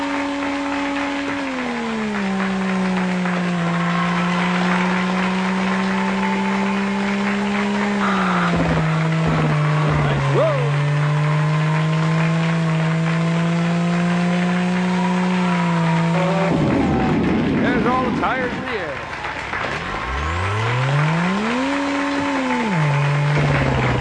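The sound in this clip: Synthesized race car engine drone from a qualifying lap in the video game Pole Position II: a steady buzzing tone that climbs, holds and shifts with gear changes, then dips and rises again near the end after a brief noisy burst.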